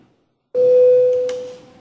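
A bell rung in parliament to call a vote: a single sustained, pure-sounding tone that starts abruptly and slowly fades, heard alone without talk.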